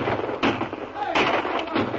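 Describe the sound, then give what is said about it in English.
Staged gunfire from a Western drama, aimed at outlaws in their camp: a few sharp, booming bursts spaced unevenly across a couple of seconds. “The first shot sent Ferris and Gonzalez to the ground.”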